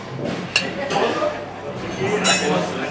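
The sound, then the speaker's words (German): Dishes and cutlery clink as food is served at the counter of a company canteen in Speyer. Steady chatter and voices continue throughout. “Punkt 11.30 Uhr. Die Essensausgabe in der Betriebskantine der Tor GmbH in Speyer öffnet.”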